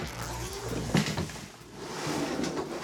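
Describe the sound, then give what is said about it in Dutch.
A magic suitcase is opened with a brief clack near the start, followed by softer rustling and handling noises. “Ik wilde zeggen, er gaat de goochelkoffer open.”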